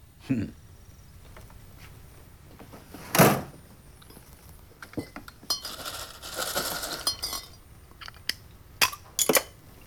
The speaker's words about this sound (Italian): Non lo faccio da un sacco di anni, ma ora mi bevo una bottiglia di birra bella gelata. Che birra vuole? Che ne dice di una Miller Lite?